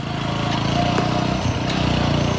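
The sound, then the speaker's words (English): A motorcycle engine runs in a steady, unbroken drone with a low rumble and a faint higher whine throughout. “So I rode the bike up to Mitiana to pick the dog.”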